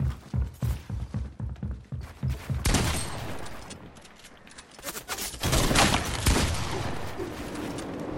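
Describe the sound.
Rapid gunfire from the video game Fortnite: quick repeated shots in the first seconds, then denser, noisier bursts of shooting that carry on loudly to the end.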